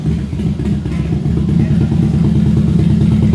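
A motorcycle engine running with a deep, grunty, low rumble, loud and steady throughout with a slight clattering texture.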